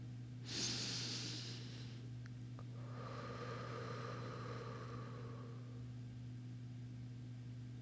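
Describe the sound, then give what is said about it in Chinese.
A slow, deep breath, airy and fairly faint, drawn out over several seconds above a steady low hum. “我能感觉到自己平静了下来，于是又一次深呼吸。”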